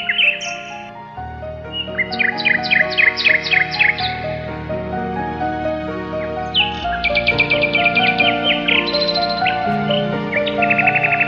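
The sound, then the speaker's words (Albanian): A bird sings in bright, high-pitched chirping trills, with several quick runs of repeated notes rising and falling in phrases. The song is loud and clear and continues throughout. “Një zog që këndon.”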